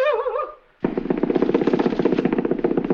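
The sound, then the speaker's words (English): A machine gun fires a rapid, steady burst of sharp cracks lasting about two seconds, just after a brief spoken voice. “What's that? It's a machine gun.”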